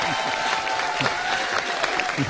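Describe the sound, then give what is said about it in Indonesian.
Audience applause for a singer after a song: brisk, continuous clapping that holds steady throughout, with a faint sustained tone beneath it. “Tepuk tangan dong buat Adera dong.”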